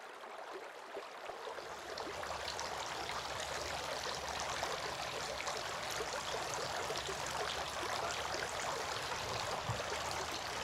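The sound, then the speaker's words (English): Running water as a person washes the face and beard. The flow makes a soft, steady rushing trickle that continues unbroken and fairly faint, with no talk. “He then washed his face three times. Washing the beard.”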